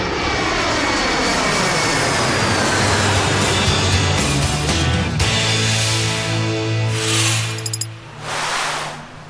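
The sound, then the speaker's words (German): Loud, steady airplane engine drone as the aircraft comes in to land, a broad roar with sustained harmonic tones that shift slightly over time, heard alone throughout. “So, Achtung, ich glaube, wir landen gleich, ne?”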